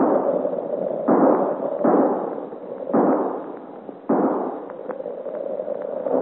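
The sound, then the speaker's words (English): Sharp gunshots ring out, about four loud reports spaced unevenly. Each crack is followed by a rolling decay over a constant rushing background, with fainter pops near the end. “What is this shooting”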